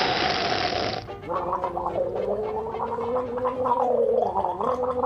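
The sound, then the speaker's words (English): Wine being slurped and gargled at a wine tasting in a country house: a short hissing slurp gives way to several seconds of bubbling, voiced gurgling whose pitch wavers up and down. “He'd been invited to a wine tasting at his new girlfriend's house in the country. Trouble is, he's never done wine tasting before”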